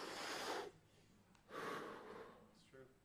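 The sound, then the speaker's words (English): Deep breaths made as a breathing demonstration: two long, loud, rushing breaths are drawn one after the other, then a shorter, softer breath follows. No other sound is present. “That's because you need air. Your body's going, breathe, fool. Breathe. Not like this. Like this.”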